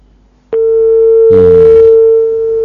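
Telephone busy tone after a dropped call on a call-in line: one steady, unbroken electronic tone that starts abruptly and holds loud to the end, with no talk over it.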